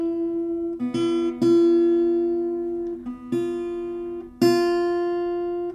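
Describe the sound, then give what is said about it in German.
A musical note F is sounded as a reference tone, a steady sustained pitch rich in overtones that is struck again several times, each attack loud and then slowly fading. “Willst du ein F hören?”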